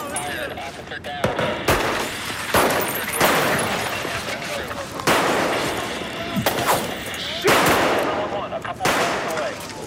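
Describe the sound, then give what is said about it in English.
Gunshots in a police shootout film scene, with an officer down: loud, sharp volleys of rapid fire erupting in several separate bursts, each trailing off before the next begins. “Shots fired, shots fired. Officers need assistance. I'm hit!”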